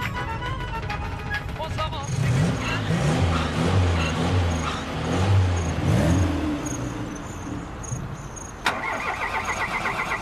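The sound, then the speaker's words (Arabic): A car engine that stops after running out of petrol rumbles under talking voices, with a single sharp click near the end. “شوفي ليش وقفت؟ يمكن خلص البنزين.”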